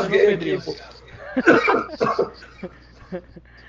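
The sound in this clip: Coughing from someone down with the flu: a few short, harsh bursts mixed with light chuckling and snickers, the sounds coming in uneven clusters with quiet gaps between them.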